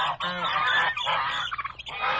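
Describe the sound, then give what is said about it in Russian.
Geese honk in a poultry yard, a string of loud, nasal calls that overlap and repeat in quick bursts with short breaks between them. “Скоро добрались и до птичьего двора.”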